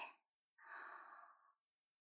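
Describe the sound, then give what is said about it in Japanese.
Deep breathing during a guided breathing exercise: the tail of one breath, then a pause, then a single long, airy breath lasting about a second, soft and unaccompanied. “吐いて、吸って、吐いて、吸って、”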